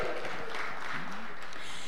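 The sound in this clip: A church audience shouting and applauding at a morning service, a brief, dense mix of clapping and cheering voices.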